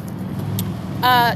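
Car traffic rumbles at the intersection of Lemon and Holt Boulevard: a steady, low engine and road drone, then near the end a brief, louder, higher tonal whine from a passing vehicle.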